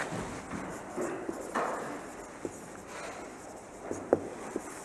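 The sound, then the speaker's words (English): A pen or marker scratches on a board while a diagram is drawn during a Bible lesson. The strokes are faint and irregular, with a few small taps, over steady background noise. “actually I want to draw this further on this side.”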